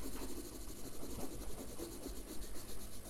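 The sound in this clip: A soft 6B pencil scratches lines across paper, making a faint, continuous dry rasp with a gritty texture that keeps going without a break.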